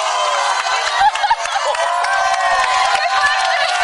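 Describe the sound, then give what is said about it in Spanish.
Wedding guests cheer and applaud outside a church as the couple leaves. A lively crowd roar mixes with clapping, and music plays underneath. “Ambos ríen felices mientras los invitados aplauden y los saludan.”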